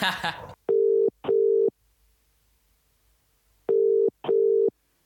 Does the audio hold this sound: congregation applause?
no

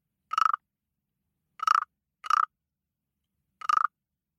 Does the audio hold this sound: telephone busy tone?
no

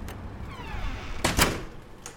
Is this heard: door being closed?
yes

